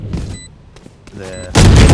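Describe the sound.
Heavy machine gun fire from a tactical shooter video game, the Odin, bursts in loud and dense near the end after a stretch of quieter, scattered game sounds.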